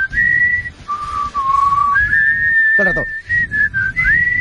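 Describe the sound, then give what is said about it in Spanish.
Someone whistles the TV weather forecast theme tune, a clear, loud melody that steps between higher and lower notes, briefly interrupted before the whistling resumes. “Eso es la sintonía del tiempo. ¿Qué? ¿Qué? Del tiempo, del que sale en la tele, del tiempo.”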